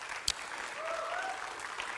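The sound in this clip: A church audience applauds to welcome guests onto the stage, a steady, fairly faint patter of many hands clapping with one sharp click near the start.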